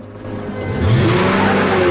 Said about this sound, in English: She jumps into the driver's seat, starts the engine, and screeches back out of the parking space.